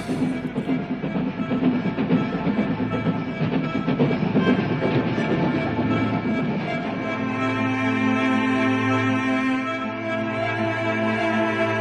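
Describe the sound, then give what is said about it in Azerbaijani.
A local passenger train runs with a continuous heavy rumble and steady tonal hum, rail clatter mixed in, holding an even loudness throughout without any horn. “Bu yerli qatardır. yoksul adamların katarı. Her yerde dayanabilir.”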